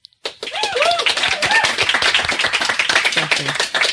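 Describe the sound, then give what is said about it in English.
Applause from a live studio audience at a sex-education show recording: a dense, steady clatter of many hands that starts abruptly after a brief quiet moment and carries on unbroken to the end. “And that, of course, is my fabulous studio audience.”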